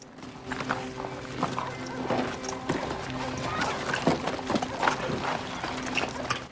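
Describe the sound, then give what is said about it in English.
Horses ridden up to a bank and their riders dismounting: rapid, uneven hoof clops at moderate volume, steady throughout. “Joe and Ned dismount and tie up their horses outside a bank.”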